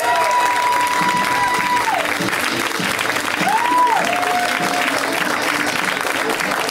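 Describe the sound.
Audience applause for comedian Al Jackson as he is brought on stage: a loud, steady wash of clapping with some cheering that holds at an even level for the whole stretch.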